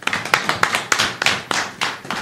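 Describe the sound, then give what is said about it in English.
An audience clapping for upcoming speakers at a talk event, with distinct, sharp claps in an uneven, unhurried rhythm. There are many separate slaps rather than a dense roar, and no talking over them. “I also want you guys to clap hand for the people who will be speaking very soon.”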